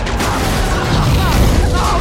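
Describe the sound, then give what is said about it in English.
Explosions kick up dirt around fleeing children in a battle where ships fire lasers at fighter jets, with a fireball erupting nearby; a dense, continuous roar of blasts and rumbling fills the whole stretch without letting up. “Explosions kick up dirt around the escaping kids. A fireball erupts beside them and they change their course.”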